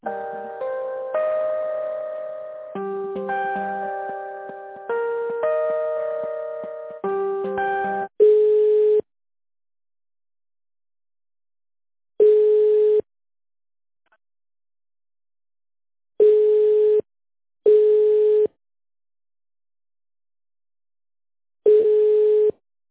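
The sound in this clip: Telephone line tones during a call transfer: a steady electronic hold melody of stacked beeping notes, then several evenly spaced single ringing tones separated by silence.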